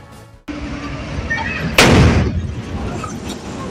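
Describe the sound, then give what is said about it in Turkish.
A single sudden, loud blast from a natural gas explosion after a kitchen fire in a second-floor home of a four-storey building in Darıca, Kocaeli. Low background noise comes before it, and a rumble lingers and fades afterward. “Kocaeli Darıca'da mutfakta çıkan yangın saniyeler sonra korku dolu anlara sahne oldu. Doğalgaz kaynaklı patlama meydana geldi. Bomba gibi patladı ve evin o anları kameraya yansıdı.”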